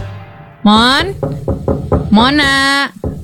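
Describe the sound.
Knocking on a door, with several sharp raps falling between two drawn-out vocal calls, all fairly loud.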